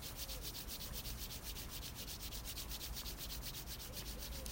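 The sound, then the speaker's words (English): Hands rubbing together in quick, steady back-and-forth strokes, a soft, dry, continuous swishing with many even pulses and no voices. “Exhale, rubbing the hands.”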